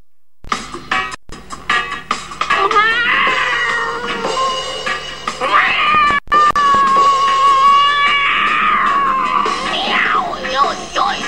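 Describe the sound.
A performer vocally imitates a cat on a scorching hot roof, letting out loud, wavering yowls and screeches that slide up and down in pitch, broken by a few sharp clicks and brief pauses.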